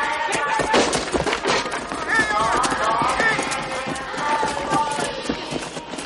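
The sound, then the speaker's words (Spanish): Running footsteps of children fleeing between deserted barracks with soldiers chasing after them, in a film scene of deportation: many quick, busy steps in a steady loud clatter, mixed with raised voices throughout. “Algunos niños corren entre los desiertos barracones. Los soldados corren tras ellos.”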